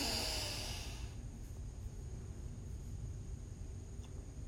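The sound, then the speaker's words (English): A deep inhale through the nose during a guided breathing exercise: one long, soft, airy rush of breath that is strongest at the start and then holds steady and faint. “Now closing the mouth, touching the tip of the tongue to the roof of the mouth. Inhale deeply in through the nose.”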